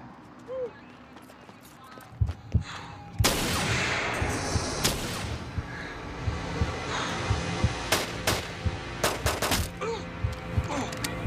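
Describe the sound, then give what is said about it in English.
Gunfire during the North Hollywood shootout: many sharp, loud cracks that come in quick, uneven bursts. A voice talks over the shooting. “Oh my God, one of the gunmen has just been shot. He's down.”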